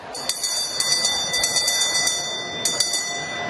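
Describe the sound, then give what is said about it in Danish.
A hand bell, rung by the newly elected speaker of the Danish parliament, clangs in many quick, bright strikes, its high ringing tones sustained between them. “Henrik Frandsen, Folketingets nyvalgte formand, ringede med klokken.”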